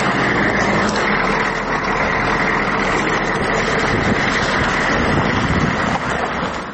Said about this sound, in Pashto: موږ د خپل شخصي موټر په واسطه د نادلي ګروپ شاش ته پر غزیدلي خامه سړک د جنگ لومړۍ کرښې ته ځو.